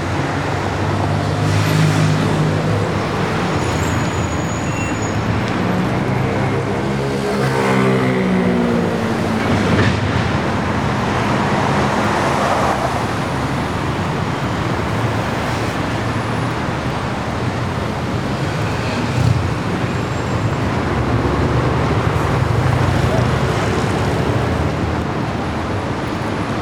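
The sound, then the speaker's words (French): Street traffic on a city boulevard: a loud, continuous rumble of passing vehicles with engine tones that swell and fade as cars go by. “Boulevard Sapakinis. Je l'entends comme jamais, si peu, si doux.”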